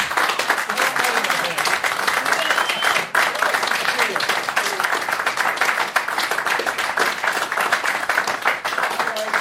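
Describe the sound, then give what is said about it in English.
Crowd applause and clapping greeting the members of a rock band at a town hall event in New York City: loud, sustained and dense, with only a brief dip partway through. “Give it up for Klaus and Matthias one more time, everybody.”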